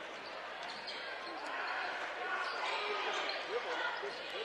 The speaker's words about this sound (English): And Pike Central just going to dribble it out of bounds.